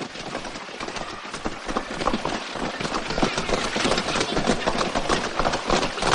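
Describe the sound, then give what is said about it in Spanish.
Horses' hooves clatter as the animals pull a carriage along a road after coachmen urge them on, a dense, continuous stream of clopping and rumbling noise with no clear individual beats. “Los cocheros arrean a los caballos y vuelven al camino.”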